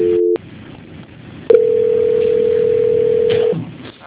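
Telephone line tones during a call transfer: a short steady tone, a pause of line hiss, then a longer unbroken tone of about two seconds that fades out.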